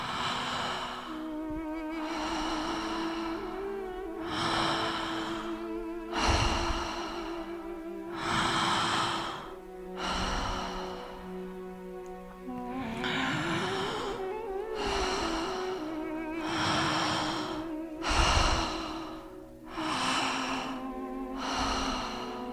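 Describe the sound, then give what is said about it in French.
Heavy breathing with many loud, rhythmic breaths in quick succession over a steady low tone. “le souffle s'accélère.”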